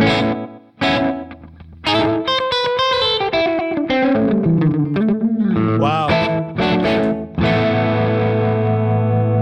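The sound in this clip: An effects unit set to organ mode colours a played instrument with a slapback echo and wavering modulation. Loud sustained notes and chords shift in pitch, with short gaps between phrases and no talking.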